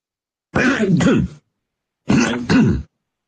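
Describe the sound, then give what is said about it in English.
Two loud, rough throat clearings, each a gruff double rasp, separated by a short pause. “At Rabbit Park, it's hard to clear your throat”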